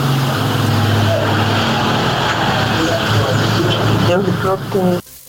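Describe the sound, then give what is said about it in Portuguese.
Road traffic with vehicles passing by a caller's location, a steady, loud roar of engines running throughout with a person talking over it, cutting off abruptly near the end. “Eita, cheio de veículo aí passando por onde você está, não é?”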